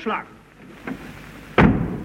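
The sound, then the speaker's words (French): A door is pulled shut as two people step inside, landing as one heavy thud near the end after a couple of faint, softer scuffs. “Entrons et fermons la porte derrière nous.”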